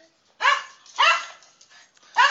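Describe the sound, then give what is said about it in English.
Dog barking, a jealous pet dog: three loud, sharp barks with short gaps between them, the last one cut off at the end. “Hey, dog. Yeah, gotta love the dog that gets jealous if anything touches me.”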